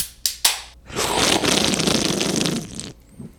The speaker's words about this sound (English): Crack you open a beer.